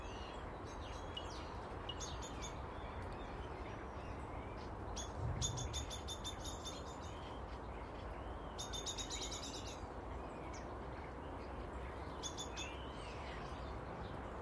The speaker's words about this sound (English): You can hear the starlings, the stuckies up in the big Lulandi.